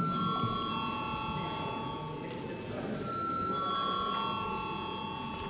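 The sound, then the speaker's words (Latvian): A bell rung in the Latvian parliament to call deputies to a vote, a steady sustained ringing tone held without break for several seconds, fairly faint and even in level. “Lūdzu zvanu.”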